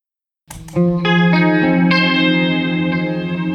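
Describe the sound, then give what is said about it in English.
Electric guitar run through a Dispatch Master delay-reverb and a chorus effect: a few plucked notes enter in quick succession after a short silence, then merge into a loud, sustained, shimmering wash that rings on without decaying. “That's just the Dispatch Master and the chorus. That's a very guitar-y sound, but one of those nice, heavily affected guitar-y sounds.”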